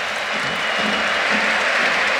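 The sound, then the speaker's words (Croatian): Football stadium crowd applauds as Hajduk captain Marko Livaja waits to come on as a late substitute, a dense and steady wash of clapping that holds at an even, loud level throughout. “Plješće veći dio tribina prema Livaji, to mjestu za promjene.”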